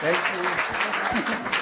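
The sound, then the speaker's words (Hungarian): Applause rises from a church service audience clapping in praise of Jesus Christ, a dense steady patter of many hands that carries on under a man's speaking voice throughout. “Egy dicsőséges tapsot kérünk az Úr Jézus Krisztusnak.”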